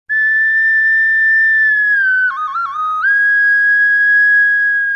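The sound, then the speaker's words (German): A recorder (block flute) plays alone, holding a clear, pure high note, then briefly dropping to a lower note with a quick wavering ornament before returning to the first pitch and sustaining it. “Die Blockflöte. Geliebt und auch manchmal ungeliebt, mit unverkennbarem Klang.”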